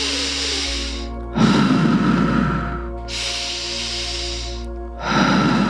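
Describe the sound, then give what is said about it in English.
Slow, deep breathing, with long airy inhales and exhales each lasting a couple of seconds and separated by brief pauses, fairly loud over a soft, steady tonal background. “Maybe with each inhale, you feel your body rising, and with each exhale, you feel your body contracting, just noticing what happens with each breath you take.”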